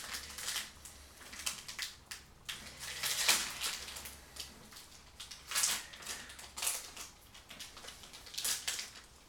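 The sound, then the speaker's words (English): A pack of hockey trading cards being opened, with faint, crisp crackles and crinkles of the wrapper tearing and rustling in many small, irregular bursts. “First off, let's start off with a pack. As always, I always open a pack every video, so let's start with this.”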